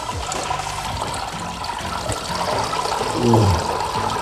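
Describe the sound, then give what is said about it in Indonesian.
Grated coconut mixed with water being squeezed by hand to press out coconut milk: a steady wet trickling and splashing of liquid that swells slightly toward the end, with no talk. “Campur kelapa yang sudah diparut dengan air, lalu aduk sampai sari santannya keluar maksimal, baru kemudian diperas. Peras lagi ya.”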